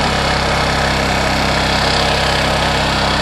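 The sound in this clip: A small engine idling after being throttled back down from a long boost, a loud, steady droning rumble with an even low pulse and no pauses.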